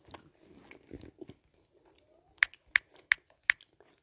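Keyboard typing as someone writes a quick message to a friend: soft, scattered taps at first, then four sharp, evenly spaced key clicks standing out near the end.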